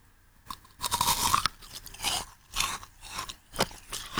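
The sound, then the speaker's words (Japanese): Crisp crunching bites and chewing of a frozen strawberry snack straight from the freezer: many sharp, crackly bursts in an irregular rhythm, with no talk. “今までずっと冷凍庫の中入れたからよいしょ。袋を開けて、おお。お、いちごの香りが。いただきます。”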